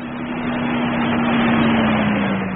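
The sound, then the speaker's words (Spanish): A luxury sports car arriving at a pier gives a steady, loud engine drone with a low, even hum running under it, unchanging from start to finish. “un lujoso auto Sport llegó al muelle.”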